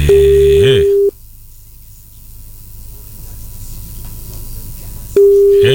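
A telephone call's ringing tone sounds as a loud, steady buzzing tone for about a second. A quiet stretch of faint line hiss follows, then the same tone returns at the end.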